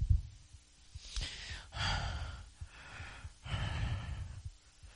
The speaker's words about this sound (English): Sorry, I have to drink so much. My throat's dry.